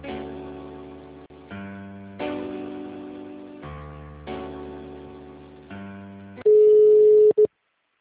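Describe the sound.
Telephone call being transferred, with a run of synthetic held tones stepping between pitches, then a single steady, louder ringing tone near the end before it cuts off.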